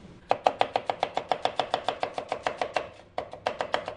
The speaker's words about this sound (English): So what I'm going to do now is just cut up an onion.